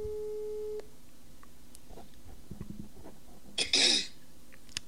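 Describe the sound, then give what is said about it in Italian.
Ringback tone while placing a phone call: a quiet, steady mid-pitched tone holds for under a second and then cuts off, leaving faint background noise broken by one short noisy burst. “Vediamo se riusciamo a far sentire. Ecco, sto chiamando.”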